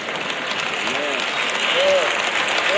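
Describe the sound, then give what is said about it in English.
An audience applauds during a talk, a steady wash of claps with a voice calling out over it a few times. “Y'all notice how the claps are getting lower and lower and lower.”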